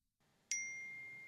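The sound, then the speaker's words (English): A single bright chime from a phone announcing an incoming text message rings out sharply, then settles into a steady, slowly fading tone. “He got another text notification and was about to send a string of profanities when he saw it was from a different number.”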